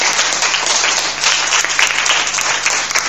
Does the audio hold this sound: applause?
yes